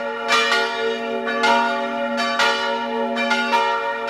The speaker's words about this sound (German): Das hier sind die heutigen Mittagsglocken.